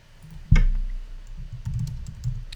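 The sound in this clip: Typing on a computer keyboard: a louder thump, then soft, scattered key clicks tapping irregularly, with no talking.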